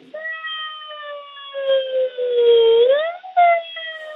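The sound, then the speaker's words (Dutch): A voice imitates a siren in a sliding vocal exercise spanning two octaves, a sustained smooth tone that dips and then glides up. After a brief break it resumes on a higher held note. “Dus het is belangrijk dat je veel oefeningen doet over twee octaven. Dus de sirene, het klinkt een beetje gek, maar die klinkt zo.”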